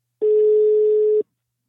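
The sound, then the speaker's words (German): Ringback tone of an outgoing phone call: one steady, mid-pitched tone lasting about a second that starts and stops cleanly, heard alone with no voices. “Und genau deshalb habe ich Sexualtherapeutin Heike Melzer angerufen.”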